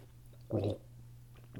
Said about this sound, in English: So what I'm going to do is have a sip here Be sure to let it pass over your tongue, gargle a little bit even, to let it hit all the taste buds.